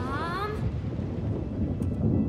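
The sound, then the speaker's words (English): Thunder after a lightning flash rolls as a loud, steady low rumble that continues throughout, with a brief voice at the very start. “A flash of lightning.”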